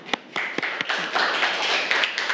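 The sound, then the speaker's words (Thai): Classroom applause for a student group's representative: a few separate claps at the start, then many hands join into steady, dense clapping. “ค่ะปรบมือให้กับตัวแทนกลุ่มที่2ของเราค่ะเยี่ยมมากค่ะ”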